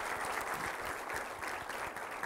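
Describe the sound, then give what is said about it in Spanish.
A church audience applauds the wives, many hands clapping in a continuous, even wash of sound at moderate to soft level. “Vamos a dar un aplauso a todas las esposas.”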